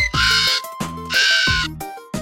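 Harsh squawks from a parrot come as a few loud, raspy, strongly tonal calls separated by short gaps, with no other sound around them.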